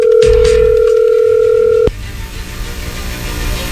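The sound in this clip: A steady telephone line tone holds for about two seconds on a call being placed, then cuts off abruptly, leaving a low, rough line hiss.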